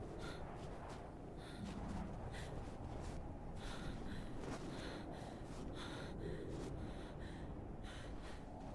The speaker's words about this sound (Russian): Тяжело дыша